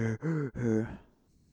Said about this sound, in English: Michael's, like, you can kind of hear like the breathing, kind of like,